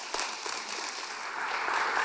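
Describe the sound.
An audience applauds to welcome a speaker onto a church stage. The clapping is dense, steady and fairly loud throughout, with no voices over it.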